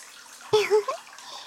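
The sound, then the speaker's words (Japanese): Warm water runs steadily while hair is washed and massaged, a soft constant wash of water under one brief voiced sound in the middle. “それならこのまま頭を洗いながらマッサージしていきますね。”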